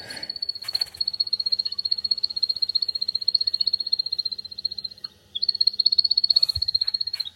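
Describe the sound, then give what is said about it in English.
Display song of a crepuscular bird, a continuous high-pitched pulsing trill that runs steadily for several seconds, breaks off briefly, then resumes with the same rapid rhythmic churring. “It's a crepuscular species that you need to make a special effort to look for. Yeah, and we're listening to the display song here.”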